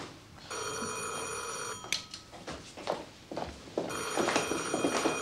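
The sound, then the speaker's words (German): Telephone bell ringing late at night in two long, shrill trilling bursts. Between them come a few seconds of scattered thumps and shuffling. “So spät? Wer ruft jetzt noch an?”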